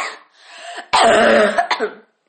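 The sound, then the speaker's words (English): A person coughing: a rough, throaty rasp first, then a loud, harsh cough burst and a brief final hack, with nothing else around it. “My cough. My lord,”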